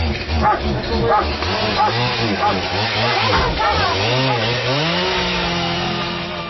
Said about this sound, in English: the RCMP used an axe and a chainsaw to do it. So it's in a very dramatic and quite disturbing, really.